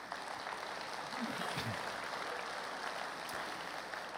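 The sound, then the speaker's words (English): Audience applause in a church as a guest is welcomed to the stage: continuous, fairly faint clapping that stays even throughout. “Give him a hand”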